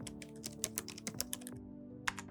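Faint typing on a computer keyboard: irregular clicking keystrokes in a busy run, a short pause, then a few more taps near the end.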